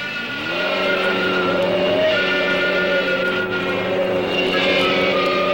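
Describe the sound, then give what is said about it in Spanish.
A powerful aircraft engine roars as a cartoon sound effect. The roar is loud and steady with a droning harmonic hum, holding almost unchanged for the whole clip without any talk. “Ahora lo he convertido en un poderoso motor de avión.”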